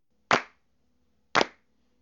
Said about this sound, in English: All right, I want everyone to start clapping. Everybody, come on, follow me.